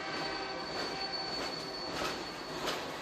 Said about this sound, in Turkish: Yük treninin çıkardığı ses 15 metre mesafeden ölçüldüğünde 80 desibel.